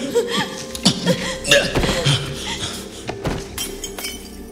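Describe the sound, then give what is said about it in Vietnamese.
A porcelain vase smashes into many pieces during a scuffle, heard as a run of sharp crashes followed by bright clinking and rattling fragments at an irregular rhythm. “Dương đẩy Công ngã xuống đất, làm cho cái bình sứ vỡ tan thành nhiều mảnh.”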